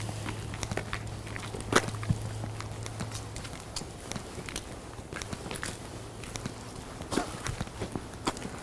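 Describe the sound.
Footsteps of people on a long walk: many crisp, irregular steps scuffing along, with a low steady hum under the first few seconds.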